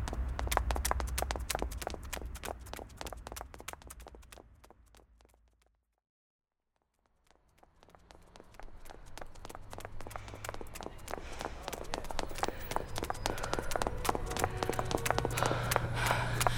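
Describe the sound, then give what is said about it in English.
Rapid running footsteps of people hurrying on foot, dense patter of quick steps that fades into silence midway, then returns and builds steadily louder toward the end. “If we run, we might be able to beat him there. Okay, let's go.”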